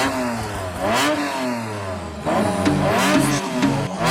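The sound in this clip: A car engine revs hard, its pitch sweeping up and falling back in repeated surges. The loud, continuous roar rises again toward the end.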